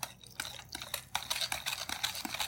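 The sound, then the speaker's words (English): A bread dough whisk stirs thick batter for a gluten-free hummingbird cake, making irregular scraping and clicking strokes against the bowl at moderate volume, with short pauses between strokes. “And it'll take a little longer to stir, but I guarantee you this is a great tool.”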